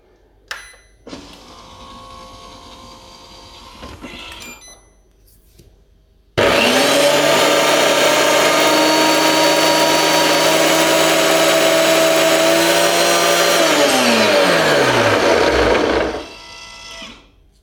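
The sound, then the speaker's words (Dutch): A blender purees bananas with a little water into ice cream: a loud, steady motor whine with grinding that runs for about ten seconds. Its pitch sags near the end before it stops, and quieter handling noise comes before it. “Dan ga je blenden.”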